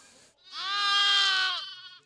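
A bottle-fed lamb bleats on a family farm during lambing season, giving one long, clear, wavering cry with bright harmonics that holds steady and then sags slightly in pitch as it fades.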